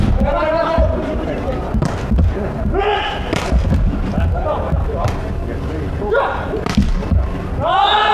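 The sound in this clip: A volleyball is served by a Nanjing team player during a match, with a few dull thuds of the ball under continuous spoken commentary.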